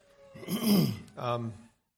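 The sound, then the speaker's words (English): Someone with sinus drainage clears their throat in two rough, fairly quiet bursts, the first longer and heavier, followed by silence. “I already have a bad habit of clearing my throat when I get a little nervous, but on top of that, I have kind of some sinus drainage this morning”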